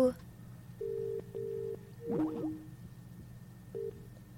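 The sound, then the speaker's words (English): Telephone ringback tone on a call line: a few steady, mid-pitched tone bursts separated by short gaps, with a brief warbling sweep midway, over a low background hum. “Oh, they're calling. I'm sorry. They're already ringing.”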